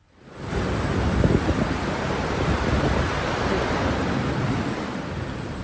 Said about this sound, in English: This was the sound of the torrents of water which flooded the area around Rashwagadi.